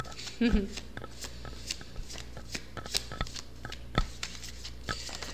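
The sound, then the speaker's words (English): Tarot cards are shuffled and pulled during a reading, producing soft papery rustles and a series of light, crisp flicks and taps scattered irregularly at low volume. “So let's talk about some destiny right now. Let's pull some cards.”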